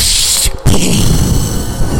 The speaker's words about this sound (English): My fake gun noise that I have to approximate myself.